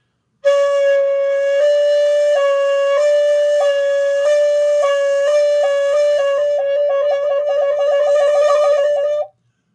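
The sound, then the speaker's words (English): A flute played very slowly with overlapping fingering, one finger held until the next hole opens: sustained clear notes step gradually between pitches, then break into quick repeated fluttering ornaments near the end, played solo. “If I slowed it down, you'll hear what's really going on, which is I'm not releasing one finger from a hole until the other one opens. So it sounds like this. Very slow.”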